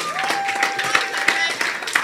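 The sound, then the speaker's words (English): An audience claps in response to a call during a church sermon. The dense clapping runs steadily for about two seconds, with a few sharper claps standing out and some crowd voices mixed in. “Clap for the Lord Jesus.”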